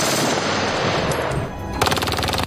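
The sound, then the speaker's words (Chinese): Machine-gun fire from a pair of jeep-mounted guns with curved magazines, each firing about 1000 rounds a minute: a dense, loud, continuous roar of shots that breaks into a distinctly rattling rapid burst toward the end. “他在吉普前端装了2挺这种机枪，这用在突袭中再完美不过了。”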